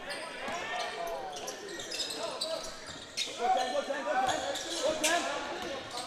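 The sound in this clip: A basketball being dribbled on a court during a game, with steady bounces beneath busy court and crowd noise throughout.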